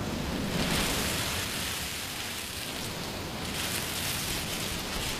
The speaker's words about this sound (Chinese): 曼说，把海螺放在耳边，就能听到大海的声音。你听，